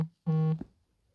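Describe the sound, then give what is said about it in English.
A single electronic beep from a phone: a steady, buzzy tone with strong harmonics, lasting about a third of a second and stopping abruptly, with quiet before and after. “I just had a beeping noise on my phone, and I have no idea what it was.”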